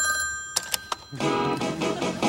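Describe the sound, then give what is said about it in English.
A telephone rings before an answering machine picks up: a few short, sharp rings, then a fuller, louder continuous sound takes over for the rest of the moment. “Do you remember George Costanza's answering machine?”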